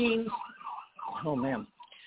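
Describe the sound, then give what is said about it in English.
An ambulance siren passes by, its warbling, rising-and-falling wail heard faintly through a narrow, phone-like line, with a few rapid pitch sweeps before it trails off. “I got an ambulance or something coming by here, so you're going to be hearing a siren.”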